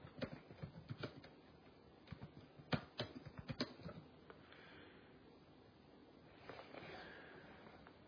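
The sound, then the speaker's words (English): Someone types on a computer keyboard: faint, quick bursts of soft key clicks in uneven runs, easing into quieter, sparser tapping toward the end. “Let's go ahead and take a look at that for a second here. I gotta type that up.”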